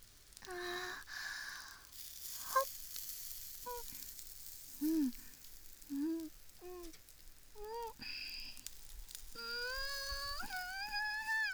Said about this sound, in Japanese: キャンプ場でバーベキュー、これ以上のごちそうは思いつかない。